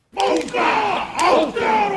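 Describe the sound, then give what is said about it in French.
Chanting crowd performing a Maori haka as a solemn tribute to attack victims in New Zealand: loud, forceful shouted phrases from many voices in short bursts separated by brief pauses, starting abruptly after a moment of silence. “Un haka maori pour rendre hommage aux victimes et leur souhaiter bonne chance dans l'au-delà.”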